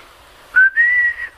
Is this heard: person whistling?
yes